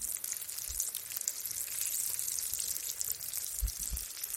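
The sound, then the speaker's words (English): Batter fritters frying in oil give a steady, bright hiss and crackle of sizzling throughout, with a few soft low bumps along the way. “So should we fry a few? Yeah, let's do it. Awesome. We've got some oil here.”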